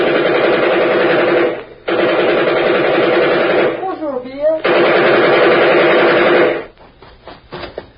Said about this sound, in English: I'm going to give that kid some covering fire.